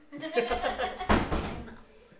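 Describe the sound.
A door being closed gives one solid thud partway through, mixed in with people talking.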